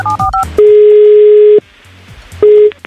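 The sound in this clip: Telephone call being placed: three quick keypad dialing beeps, then a loud, steady ringing tone lasting about a second, a quiet pause, and the next ring tone starting.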